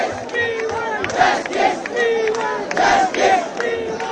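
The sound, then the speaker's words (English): Young protesters of the Cockroach Movement chant in Delhi, a crowd shouting short repeated phrases in a clear rhythmic pattern at moderate loudness. “Sounds of defiance organised by the youth-led and memorably entitled Cockroach Movement, the CJP.”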